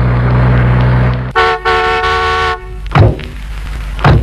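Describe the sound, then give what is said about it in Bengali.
A car arrives with its engine humming low, then its horn sounds twice, a short toot followed by a longer loud blast, before a couple of dull thuds. “ও ওই তো গাড়ির শব্দ প্রায় এলো,”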